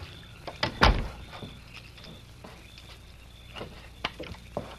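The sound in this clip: An office door is shut and locked: one solid thud early on, then a few small, faint clicks and rattles from the handle and lock.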